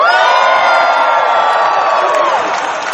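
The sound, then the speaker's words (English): A loud Star Wars Celebration convention audience cheers and whoops in a sustained roar that eases slightly at the end. “How many of you are going to cheer no matter what I say?”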